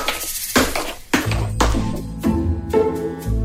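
Potatoes being mashed vigorously with cream and melted butter, with a steady series of sharp clinking thuds as the masher strikes the bowl about every half second, each followed by a short rattle.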